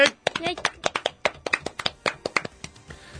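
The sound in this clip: Hand clapping marks a 350th session: many sharp, irregular claps from a small group, uneven in loudness and spacing, rattling along quickly before thinning out at the end.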